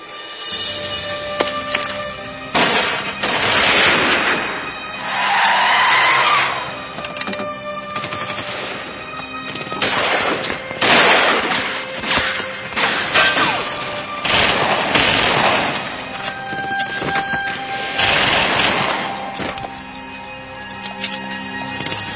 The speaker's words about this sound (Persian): 6 تا گلوله بهش زدم ولی بهش اثر نمیکنه. سرتو بیار پایین. اونا جلیقه ضد گلوله تنشونه. بزن به سرشون یا پاش رو.